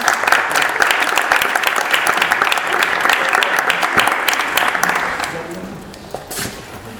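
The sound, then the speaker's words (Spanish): Audience applause for the speakers at a fanzine fair talk: steady, dense clapping that eases off after about five seconds, leaving a few scattered claps at the end. “Un aplauso para ellos.”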